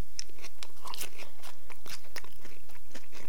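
Crisp crunching as someone bites into and chews a homemade onion bhaji with an insect in it, many sharp crackling crunches in quick succession with no talking.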